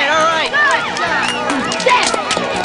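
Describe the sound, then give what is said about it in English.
Residents in a video game cheer as gang members flee the streets, with many overlapping excited voices forming a busy, animated crowd babble. “Residents cheer as gang members flee the streets.”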